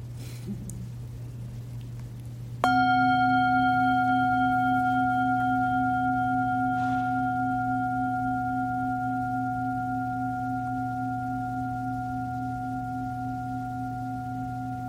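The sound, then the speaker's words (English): A meditation bell is struck once and rings with a bright, sustained chord of tones that fades very slowly over many seconds, while a steady low hum continues underneath from the start. “It co-arises with the bell. The consciousness of the sound depends on the sound, is co-arising with the sound. And with the sound dying, the consciousness of the sound dies.”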